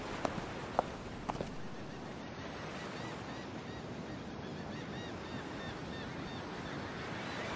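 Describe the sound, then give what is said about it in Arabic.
Waves wash steadily in a harbour, a soft, even rush of water with a few faint clicks near the start. “يبدو أننا وصلنا إلى الميناء.”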